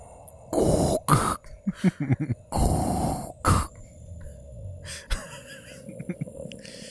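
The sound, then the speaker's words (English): A person's voice imitates a masked villain's heavy mechanical breathing, producing raspy, wheezing, cough-like gasps in several irregular bursts separated by short pauses. “Oh man, what's his name? Darth Vader. But I'll breathe like him, so I can sit next to you.”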